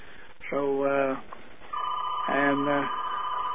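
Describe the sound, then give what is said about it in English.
A fax phone rings in two flat, buzzy electronic bursts, with voices talking underneath. “Do you have to get that? No, no, okay. that's a fax phone there.”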